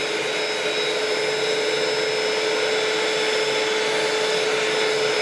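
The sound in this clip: An electric blender mixes a thickening mixture with a steady, loud whirring drone and a constant high whine that holds unchanged throughout.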